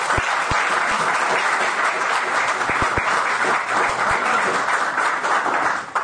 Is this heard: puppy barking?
no